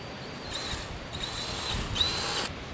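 A power drill bores an extra hole in a brass tracking collar meant for a rat, producing a steady, hissing whir with a few brief surges in strength, fairly faint and with no talking.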